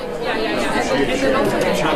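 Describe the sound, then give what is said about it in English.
Many voices of journalists chatting over one another on a lunch break at an April press club conference in Alaska, a dense, steady murmur of overlapping talk. “It should not be a surprise that journalists love to talk. Here's the sound of them on lunch break in April at Alaska Press Club Conference.”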